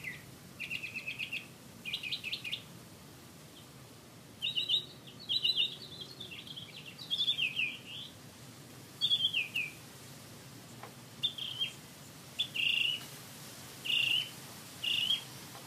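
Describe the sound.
A bird calls before dawn, around 3 a.m., in many short bursts of high chirps and trills separated by brief pauses, fairly faint over a quiet background.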